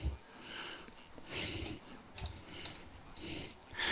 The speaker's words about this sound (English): Let me get the next apple out here. Hardest part's getting the apple out of the bag.